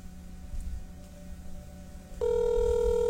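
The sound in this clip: Telephone ringback tone on a call that has not yet been answered: after a stretch of faint hiss, a steady buzzing tone starts about two-thirds of the way through and holds to the end.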